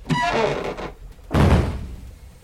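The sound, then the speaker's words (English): A crate being taken off something, heard as two heavy, dull thunks about a second apart, each with a short rumbling decay. “Okay, stand back. Crate's coming off this thing.”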